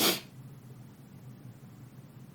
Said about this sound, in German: Auch mit diesem Schnäuzen dazu.